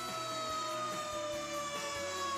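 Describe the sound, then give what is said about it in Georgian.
Fire truck siren sounding a steady, sustained high tone that drifts slightly downward, continuous through the short clip over a low, uneven rumble. “რატომღაც საქაური სახანძრო მანქანები უკეთ არიან აღჭურვილები, ვიდრე ჩვენი.”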